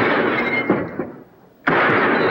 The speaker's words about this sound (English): They look up and see a drifter shooting at a row of gas lanterns hanging in front of the saloon.